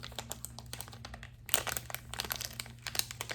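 Crinkling plastic packaging of Marimoto, a Colombian snack, gives many sharp, crisp crackles and rustles in a steady, fairly soft stream, with no talking.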